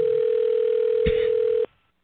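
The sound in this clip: A telephone dial tone sounds while a call is placed, a steady single-pitched hum held loud and even, broken by one brief click, then cut off abruptly near the end.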